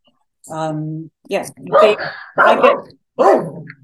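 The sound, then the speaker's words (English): Dogs bark. A drawn-out, tonal bark is followed by a few shorter barks, with a person talking over them. “The dogs bark. I forget what I'm talking about.”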